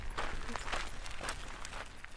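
Footsteps walk along a coastal path beside golf courses near St Andrews in Fife. Several soft, irregular steps sound faintly over a low background.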